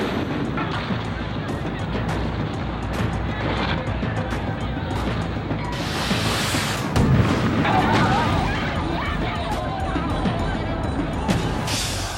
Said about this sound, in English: Faced with a deadly arsenal of crude weapons, the police have no choice but to fire tear gas and rubber bullets.